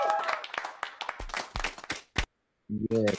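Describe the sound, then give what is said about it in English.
Scattered applause for a guest, a few sharp hand claps mixed with talking voices, a brief pause, then a short burst of voices at the end. “Yes, everyone. Let's give Jim a round of applause.”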